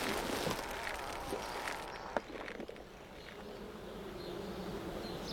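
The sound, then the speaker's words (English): Bees buzz beside their hives in a dense, steady drone that continues without a break. A single short, sharp knock cuts through the buzzing partway in. “It happened here, beside the hives. This is where Francis was stung.”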